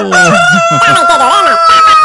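A rooster crows in a loud, strained call lasting about two seconds over a steady background tone.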